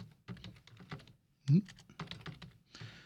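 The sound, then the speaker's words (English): Computer keyboard typing: many quick, irregular keystroke clicks in bursts, with one louder thump partway through and a brief pause before the tapping resumes. “let me pull up the list here if I can try to type it in correctly this time.”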